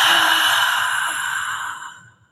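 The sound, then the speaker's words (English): A deep, audible exhale during a guided breathing exercise comes as a single airy rush that starts strong and tapers away over about two seconds. “Breathe in love. And breathe out darkness.”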